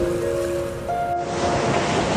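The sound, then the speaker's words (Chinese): Flowing water and waves make a steady, full rushing wash that stays even in loudness throughout, with no distinct individual splashes. “听到了吗？溪流的声音，湖泊的声音，江河的声音”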